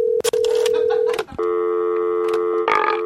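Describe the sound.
Telephone keypad dialing tones: a few loud, steady, clear electronic beeps held for long stretches, with short breaks and clicks between them.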